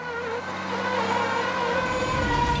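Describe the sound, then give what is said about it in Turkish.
A truck's tyres spin on a wet, slick surface while loading onto a ship, a steady loud whining drone with sustained tonal layers that holds and swells slightly throughout. “Lastikler boşa dönüyor.”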